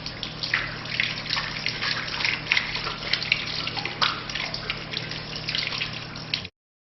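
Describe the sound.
Water runs from a tap while both hands are washed up to the wrists for ablution. The stream splashes steadily with small irregular splatters, then cuts off abruptly just before the end.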